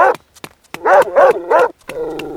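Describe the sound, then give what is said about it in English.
Dog barking: a few short faint sounds lead into three loud, harsh bursts in quick succession, followed by a steadier, lower tonal sound to the end. “Ah! My leg! Bad dog!”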